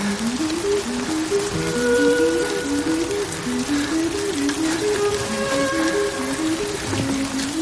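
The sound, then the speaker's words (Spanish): Rain falls steadily on a man kneeling among garbage bags, soaking his shirt. The dense, continuous hiss keeps an even loudness, with a low tonal line running through it. “La lluvia empapa su camisa”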